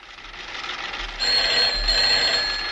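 A telephone rings in a radio studio as listener calls come in: a steady, bright high ringing tone starts about a second in and holds to the end over background hiss.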